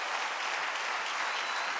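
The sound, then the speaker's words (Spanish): Audience applause during a sermon, dense and steady clapping that blends into an even, fairly soft wash with no voices over it. “Dale otro aplauso y te voy a explicar esto en un momentito.”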